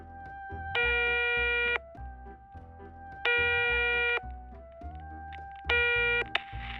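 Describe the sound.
Electronic telephone tones as a call is dialed in a radio drama: three sustained, buzzy beeps, each about a second long and evenly spaced, sounding over a soft, shifting tonal background.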